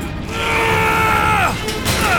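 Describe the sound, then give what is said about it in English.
A heavy metal hatch is forced open, a loud grinding groan with falling, creaking tones, followed by a couple of short metallic knocks. “We're almost at the hatch. Quick! Help me get this open!”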